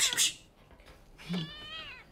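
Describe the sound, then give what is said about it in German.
A cat meows twice: a short, bright cry, then after a pause a longer, wavering meow. No one talks. “Nimm die Katze weg. Wenn sie in die Takelage klettert, ist alles zu spät.”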